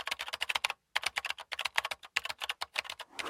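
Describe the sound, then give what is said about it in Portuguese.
Rapid typing on a computer keyboard: many crisp key clicks in quick, uneven bursts with two brief pauses, steady in loudness, with no voices. “E a resposta correta é... alguém a escrever no teclado de um computador.”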